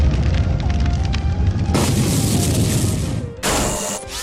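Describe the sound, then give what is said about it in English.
Fire strike attack in a turn-based battle video game: a loud, roaring fiery blast that sustains, with a sharp renewed burst near the end. “Folavolin used Fire Strike.”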